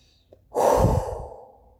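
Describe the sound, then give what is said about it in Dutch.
A single deep, calm breath drawn out for about a second, a soft breathy rush that swells quickly and fades slowly, heard alone without talk. “ik moet zelf gewoon echt even rustig ademen.”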